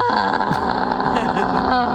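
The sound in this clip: A horn blast with a buzzy, flatulent tone like a whoopee cushion, one sustained rasping note held at a steady, fairly loud level for about two seconds.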